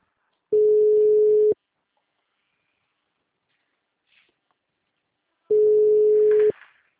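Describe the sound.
A phone line after a dropped call gives two long, steady, mid-pitched telephone tones, each about a second long and separated by several seconds of near silence, with faint rustling between them.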